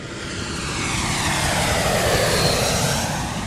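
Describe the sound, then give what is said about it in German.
Loud, steady roar of a fixed-wing airplane with engine noise, arriving in Amsterdam. The broad wash of sound swells slightly in the middle and holds even throughout, with no voices. “Im Frühjahr 2022 steigt in Amsterdam ein junger Mann aus einem Flugzeug.”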